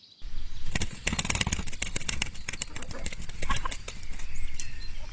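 Loud, rapid flapping of a rooster's wings as it flies up into a tree, many sharp, papery beats in quick irregular bursts after a brief quiet start, continuing for several seconds.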